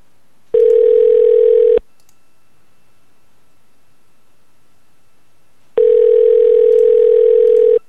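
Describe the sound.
Telephone line tone while calling a number back: two long, steady, mid-pitched tones, each about a second long, separated by a silent gap of several seconds, loud and clean with no voices.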